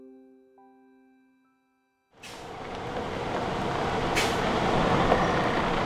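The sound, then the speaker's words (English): Engine of a semi truck, a 2016 Freightliner Cascadia, pulling into a gravel driveway. A broad, steady roar cuts in abruptly after a soft, quiet start and swells gradually louder. “Anil Garmalkar pulls a semi into the gravel driveway outside his house. It's a 2016 Freightliner Cascadia.”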